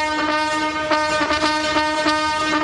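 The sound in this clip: A trumpet fanfare sounds at the House of Lords as the King and Queen arrive: bright, loud, sustained brass chords with a series of rhythmic accented attacks, and no talk.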